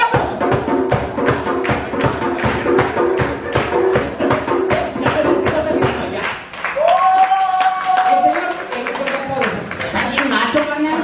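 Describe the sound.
Audience at a live comedy show claps in a fast, steady rhythm for about six seconds, then a loud voice rises over fainter, scattered clapping.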